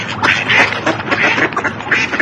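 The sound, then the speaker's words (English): Ducks quacking at a park pond: many loud, raspy quacks overlapping in a dense, continuous chorus with no pauses. “There wasn't a pond here before. There is one now. There are ducks too.”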